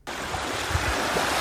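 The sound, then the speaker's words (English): Rushing water of the flooded Tubatse River surging downstream: a dense, steady roar that begins abruptly and holds at an even level, broad and hissing with some low rumble underneath, with no voices. “That is the sound of the Tubatse River with its raging waters surging downstream.”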